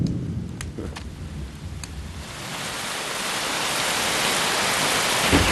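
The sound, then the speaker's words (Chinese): Low rolling thunder rumbles at the start, then a dense hiss of rain grows steadily louder and fills the rest. “这么大的雷啊，吓我一跳！哎呀，要下雨了！”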